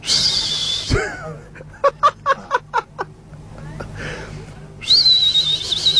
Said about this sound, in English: Oh, you can whistle. Hey, whistling is also part of celebrating, isn't it? But I can't whistle. Like, the best I can do is